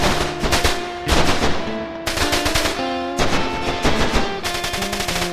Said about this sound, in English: Who shot the German machine gun? Is that a Gatling gun?